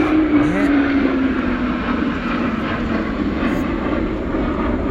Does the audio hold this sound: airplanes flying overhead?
yes